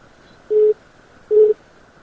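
Telephone call signal tone: two short, steady mid-pitched beeps, evenly spaced and alone over faint background hiss.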